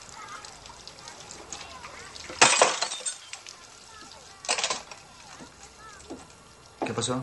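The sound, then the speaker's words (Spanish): A drinking glass shatters as a hand tightens on it while cleaning it in a bathroom: one sharp, bright crash with tinkling, then two briefer clinking bursts over a low, steady background. “Nada, rompí un vaso.”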